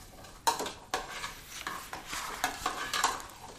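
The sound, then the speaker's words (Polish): A spoon stirs vegetable salad with mayonnaise in a bowl, making several brisk scraping, squelching strokes with short pauses between them. “Wymieszaj.”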